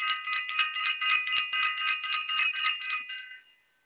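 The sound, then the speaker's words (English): A bright, high-pitched bell rung with rapid repeated strikes for about three seconds, then left to ring out and fade away, with no voices over it. “Let me ring the bell.”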